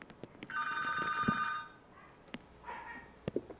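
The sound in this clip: Telephone ringing with an incoming call: one electronic ring of about a second with a bright warbling tone, then a shorter, fainter tone, with scattered clicks and knocks around them.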